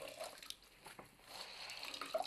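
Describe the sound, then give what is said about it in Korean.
Water trickles and drips as a wet cloth is wrung out by hand; the cloth was dyed once, dried, then re-soaked before another dyeing. Faint, uneven splashing and dribbling runs throughout, with a small louder spurt near the end. “한번 염색하고 났던 천도 이렇게 다시 한번 말랐을 경우에는 적셔서 물기를 꼭 짜주세요.”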